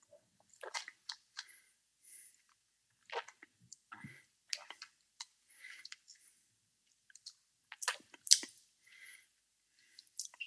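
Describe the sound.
Soft, wet chewing and sticky mouth clicks as someone tastes peanut butter, faint and irregular, coming in scattered bursts with pauses between them and no talk.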